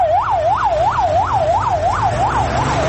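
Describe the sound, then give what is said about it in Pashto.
An ambulance siren yelps fast and loud, rising and falling about eight times in a regular cycle over a low engine rumble. “د مړو او ټپیانو لېږدولو ته امبولانسونه تیار دي.”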